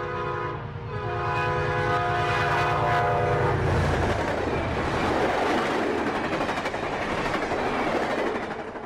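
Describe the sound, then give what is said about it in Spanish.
A train departing for London in a radio drama sound effect: a loud, sustained horn blast for several seconds, then a steady rumble and rhythmic clatter of the carriages rolling on. “Esa noche, el desventurado Barwell tomó el tren para Londres”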